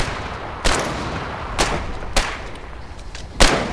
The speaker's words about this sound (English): Oh, stop shooting at it. That's nothing. It doesn't hurt it. We need explosives.